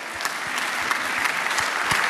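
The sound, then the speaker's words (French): An audience at a comedy show applauds with dense, continuous clapping that stays steady and loud from start to finish, without a break. “Et applaudissements, double applaudissement pour Adrien qui a joué le jeu, mesdames et messieurs.”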